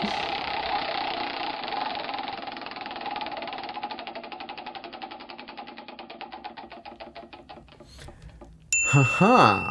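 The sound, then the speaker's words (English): A self-spinning prize wheel whirring and clicking, its rapid ticks gradually spreading apart as it slows and stops, followed by a short vocal sound. “there's no spinning of it now. It spins itself. It does. It's a self spinner. Huh? It's a self spinning wheel.”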